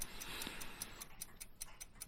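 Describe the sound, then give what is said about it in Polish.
A Gustav Becker desk clock with a jewelled balance escapement ticks in a quick, even rhythm of about five faint, crisp ticks per second, with no voices. “Zegar biurkowy. Bynajmniej tak wtedy to się nazywało. No i chodzi jak bomba, prawda?”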